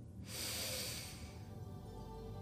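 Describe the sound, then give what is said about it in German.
A deep breath drawn in through the nose during a guided breathing exercise: a steady, airy rush of inhalation that starts abruptly and holds fairly loud to the end, with no voice over it. “Atme einmal tief durch die Nase ein”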